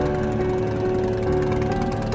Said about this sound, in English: I watch the bike as it races off into the dark.